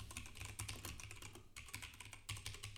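Someone types a prompt into a chatbot on a computer keyboard: many quick, faint keystrokes in a rapid, uneven patter, with a short pause midway before a final burst.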